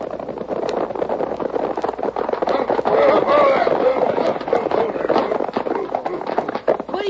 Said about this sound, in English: It was an hour later when the three outlaws, headed by Jake, rode into Dalton with Betty and the other passenger from the coach.